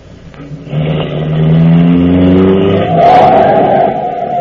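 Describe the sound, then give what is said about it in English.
A car engine accelerates as the car drives past, nearly hitting someone. A loud, growling hum climbs in pitch, then gives way to a higher whine in the final seconds. “That man nearly drove into you. Oh, honestly, the way some people drive out here.”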